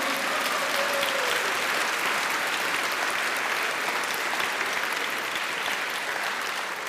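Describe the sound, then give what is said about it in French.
A church audience applauds to acclaim the Holy Spirit, with steady, continuous clapping at a moderate level that eases slightly near the end. “Acclamons le Saint-Esprit maintenant et très fort.”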